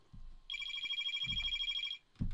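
Telephone ringing before a radio call-in is answered: one long, bright electronic trilling ring, then the start of another, with low thumps beneath.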